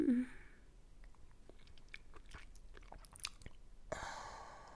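Someone eating a popsicle, with faint wet chewing, biting and sucking sounds in an irregular pattern over a soft background hiss.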